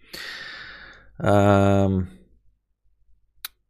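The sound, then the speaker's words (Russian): A person yawning: a long breathy inhale, then a loud voiced, droning exhale lasting under a second, followed by near silence and one sharp click near the end. “И вы не смотрите, то, что я зеваю, это нормально.”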